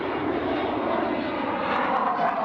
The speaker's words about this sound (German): Heute ist eine Tiefflugausbildung. Wir fliegen halt Tiefflug über See und Tiefflug über Land.